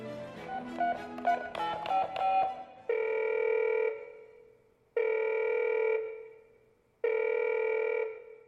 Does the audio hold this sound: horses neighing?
no